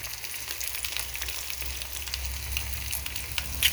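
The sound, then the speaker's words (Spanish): Eggs fry in a pan with a faint, steady crackling sizzle and a slightly sharper pop near the end. “Procedemos a echar nuestro primer huevito. Guardamos la cáscara para el compost. Echamos nuestro segundo huevito en el sartén.”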